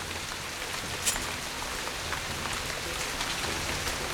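Steady rain falls on a rain-soaked road by a camp, an even, dense hiss with scattered tiny drop ticks and no voices.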